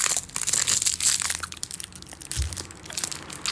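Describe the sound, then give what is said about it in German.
Crinkling of a chocolate bar wrapper being handled and opened: dense, crackly rustling that carries on for several seconds without any voices. “Iss diesen Schokoriegel. Ah, ein Schokoriegel.”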